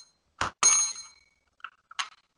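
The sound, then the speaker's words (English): A bell rings with bright metallic dings, two close strikes first and then a few fainter clinks and a final ring after a short pause, heard alone. “the bell sounds like shit. I don't know. My we need to get a new one.”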